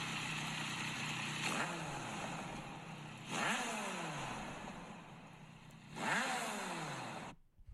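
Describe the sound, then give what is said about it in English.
The engine of a high-mileage inline-four motorcycle runs at a steady, fairly quiet idle, broken by three throttle blips whose pitch rises and then sinks back before the sound cuts off. “That already sounds like a Yamaha startup. Okay, go starting on. Motor.”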